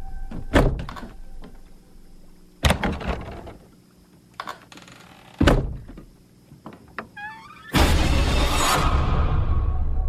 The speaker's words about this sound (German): Kannst du die Schranktür zumachen?